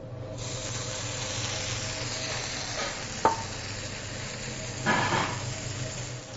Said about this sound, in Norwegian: Så tar du en varm panne med først olivenolje og steker herligheten oppi det.